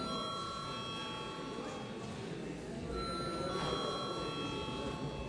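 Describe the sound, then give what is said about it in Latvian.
A bell is rung in a parliament chamber to call members to a vote. Its sustained ringing tone holds steadily over a low murmur of voices throughout. “Paldies, lūdzu zvanu.”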